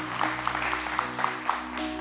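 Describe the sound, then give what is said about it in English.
An audience clapping hands in praise at a church service, quick rhythmic claps at a steady beat over a low sustained tone, quiet overall. “Give the Lord a hand clap of praise. Hallelujah.”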